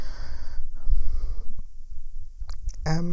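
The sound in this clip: Ragged, panicked breathing during a panic attack, a run of wheezy snorting inhales and exhales, uneven in rhythm and moderately loud, ending in a strained rasping gasp, with no words spoken.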